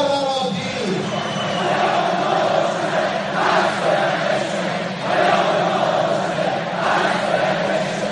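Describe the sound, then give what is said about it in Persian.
A crowd of audience members chants a Persian political slogan in unison, loud and rhythmic, with repeated shouted phrases rising and falling in regular pulses over a constant crowd roar. “پیام ما روشنه پس باید بشکنه، شعاری بود که حضار دادن.”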